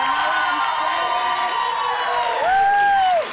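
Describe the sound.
Studio audience of a panel talk show cheering and whooping, a loud, sustained wash of crowd noise with a high, sliding whoop that rises near the end.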